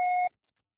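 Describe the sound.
A voicemail beep: one short, steady electronic tone that cuts off cleanly, followed by silence.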